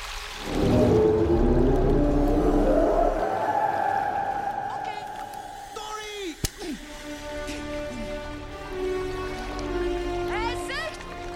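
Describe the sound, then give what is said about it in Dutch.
A voice imitates whale speech with long, drawn-out, wavering low moans that slide in pitch, later giving way to quieter gliding tones and a few short chirps, broken once by a brief sharp knock. “Wacht even! Nee, geen walvistaal meer. Je kan geen walvis spreken. U kan dat wel!”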